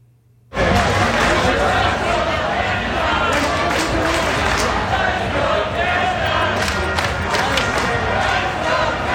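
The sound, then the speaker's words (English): Fans cheering on Granville Street after Canada's World Cup win over South Africa. A loud, dense roar of crowd noise with shouts starts abruptly after half a second and holds steady to the end. “That's the sound of fans on Granville Street cheering for Canada right after their big win against South Africa this past Sunday.”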